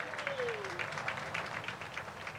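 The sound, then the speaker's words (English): Audience applause greets the introduction of a former Pinellas County commissioner at a civic gathering, with soft, steady clapping from many hands that carries on evenly throughout. “See, guys, when you roll off, you get a bigger applause than when you're on.”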